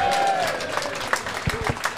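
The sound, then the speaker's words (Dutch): Applause from the crowd at a pop venue event, with scattered claps and a broad rustling patter mixed with a few voices. “En natuurlijk ook een applaus voor Koen en Joris!”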